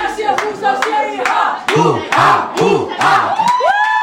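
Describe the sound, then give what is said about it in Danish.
Group performing a hu-ha call-and-response battle cry, with short shouted calls answered by loud collective yells. The exchange comes in a quick, punchy rhythm and ends on a higher, rising shout. “Når jeg siger hu, så siger vi ha. Huha, huha.”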